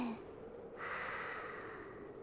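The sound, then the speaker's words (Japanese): A single slow breath drawn during a guided deep-breathing exercise, soft and faint, with a brief sniff at the start followed by a long airy exhale. “じゃあ、最後に深呼吸。吸って、吐いて、”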